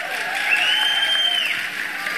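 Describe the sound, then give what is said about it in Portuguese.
Audience applause for a government minister at an official event, a steady hiss of clapping with a long, high whistled tone that slides up, holds, then drops away midway. “Uma salva de palmas ao nosso ministro Alexandre Silveira.”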